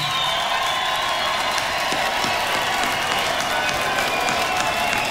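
Sustained applause from an audience in a community hall in Borgarfjörður eystri, eastern Iceland. Dense, even clapping with some crowd noise holds at a steady loudness throughout, with no pauses.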